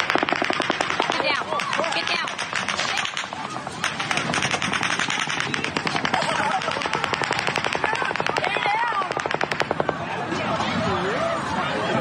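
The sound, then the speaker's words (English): Machine gun fire rattles in long, rapid bursts for almost the whole clip, loud and relentless, with voices audible beneath the shooting. “That is so chilling, isn't it? There is nothing like the sound of machine gun fire.”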